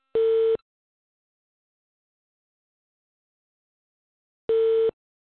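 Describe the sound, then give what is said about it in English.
Two identical low, steady electronic tones from an incoming telephone call on a phone line, each lasting about half a second, separated by roughly four seconds of silence and heard alone. “Somebody got a call coming in? I think that's like the same deep sound that we had. Yeah, it sounds like when somebody's calling you,”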